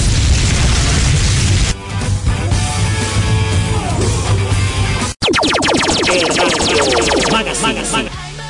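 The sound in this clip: A fire jutsu explosion sound effect roars as a loud, dense, rumbling blast that lasts several seconds, breaks for a brief instant of silence, then resumes as a second long, turbulent burst.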